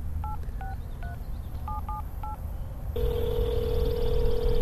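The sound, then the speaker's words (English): Touch-tone keypad beeps as a phone number is dialed: six short dual-tone presses at uneven intervals, then a steady continuous tone takes over and holds to the end. “you only have to dial 7 digits.”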